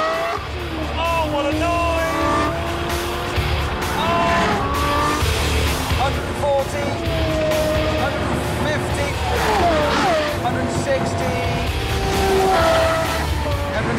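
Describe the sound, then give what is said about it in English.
A new Lamborghini sports car races down a closed-off highway in Abu Dhabi, its engine note shifting in pitch with sharp gliding tones like tire squeal, loud and continuous beneath a talking voice. “Want to know what this new Lamborghini is like? Take a spin with Richard Hammond of the wildly popular British TV show Top Gear as he races down a closed-off highway in Abu Dhabi.”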